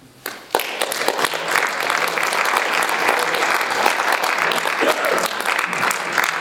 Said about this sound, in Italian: Naturalmente un applauso alla lettura.